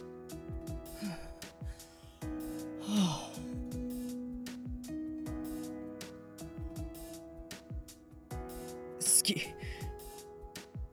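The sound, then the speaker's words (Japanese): A deep breath drawn by a young man steeling himself to confess his love to a childhood friend, a soft breathy inhale around a steady tonal background. “深呼吸。”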